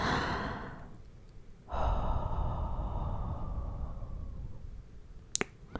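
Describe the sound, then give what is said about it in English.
Gentle hot breath blown against an ear: a short breathy puff, then a longer, steady, airy blow lasting a few seconds that slowly softens, followed by a couple of faint clicks. “I move up to your ear and blow. Gentle hot breath against it.”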